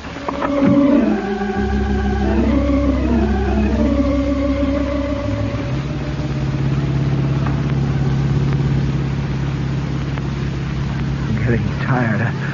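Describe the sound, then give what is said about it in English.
Engine of a blue 1942 convertible driving on a highway: a loud, continuous motor sound with shifting, wavering tones at first, then settling into a steady, deep droning hum that holds to the end. “Driving all night, all day.”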